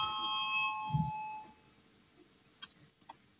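Electronic chime rung in a parliament to call members to a vote sounds as a sustained tone for about a second and a half. A quiet stretch follows, broken by two short, sharp clicks.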